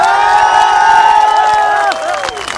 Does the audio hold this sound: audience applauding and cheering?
yes